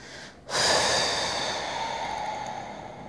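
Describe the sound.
Breathing during a breathing exercise: after a brief quiet moment, one long, soft, airy breath starts abruptly and holds steady for nearly three seconds.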